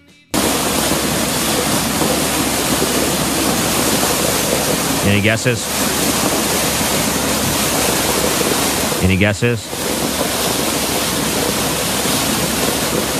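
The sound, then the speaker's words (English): Water gushes from a fire hydrant smashed by a car, a loud, steady rushing hiss that holds unchanged throughout, while a voice briefly speaks over it twice. “a video of a car that smashed into a fire hydrant and the water is gushing out.”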